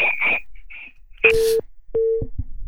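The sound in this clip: Telephone line tones come from an incoming call: two short, steady, mid-pitched beeps separated by a brief pause, with a burst of hiss and a few clicks around them and a voice at the start.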